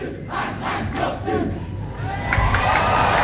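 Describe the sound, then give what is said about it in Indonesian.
An audience roars and cheers for performers representing Gianyar Regency at a stage show, a loud crowd of shouting voices that swells further in the final second. “Sebagai pembuka pastika disambut riuh penonton niki sane sampun nenten sabar untuk menyambut duta perwakilan Kabupaten Gianyar.”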